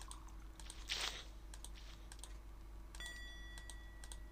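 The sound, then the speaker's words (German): Rapid clicking on a computer mouse or keyboard to melt a cube in a video game comes through as faint, sharp clicks in an irregular quick series. “man muss schnell genug klicken. Dann schmilzt der Würfel.”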